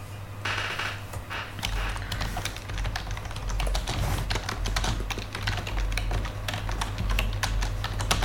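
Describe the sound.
Fast, continuous clicking of a computer keyboard as someone types out a question, the keystrokes dense and even over a constant low background hum.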